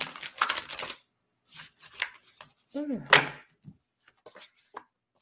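Riffled bursts of a deck of cards being shuffled during a card reading, crisp papery flutters in a quick cluster, then several shorter, scattered shuffles, with a brief vocal sound midway.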